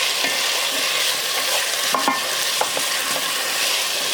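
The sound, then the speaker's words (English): Canned red curry paste for a Panang curry sizzles steadily in hot ghee, a dense, even frying hiss with occasional light scraping clicks from stirring and no talk. “So all I'm doing now is just blooming the curry paste to develop those flavors in the oil. I actually use ghee, but you can use oil.”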